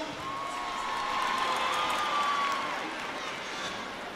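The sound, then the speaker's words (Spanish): An audience applauding and cheering for a performer, a sustained wash of clapping and crowd voices that swells toward the middle, with a high whistle-like whoop running across it, then eases off. “Un aplauso grande para Vinza.”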